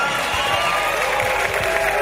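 Audience applause and cheering at a live concert, a dense, steady wash of clapping and crowd noise lasting about two seconds, with a faint lingering musical tone beneath.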